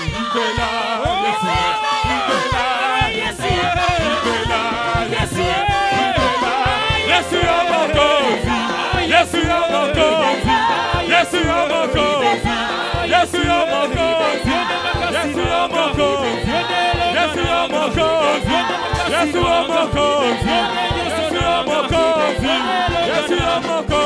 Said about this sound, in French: On acclame le Seigneur en pousse des cris de joie.